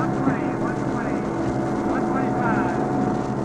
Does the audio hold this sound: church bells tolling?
no